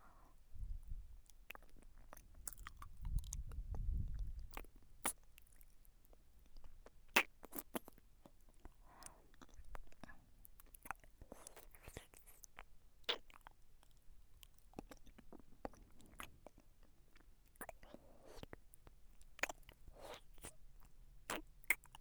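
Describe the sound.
Chewing and eating food that tastes better than expected: many crisp, crunchy bites and mouth clicks in an irregular rhythm, fairly faint, with a low rumble early on and no talking.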